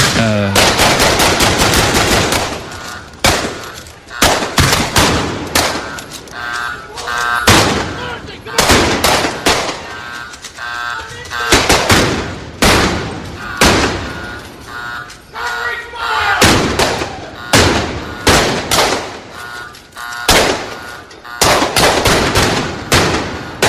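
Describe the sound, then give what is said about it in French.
A gunfire shootout breaks out by a bank near a diner: loud rapid bursts of many shots crack again and again, with brief gaps between volleys. “en quelques instants une fusillade éclate. Oh. Les balles fusent de partout, la vitrine du diner vole en éclats.”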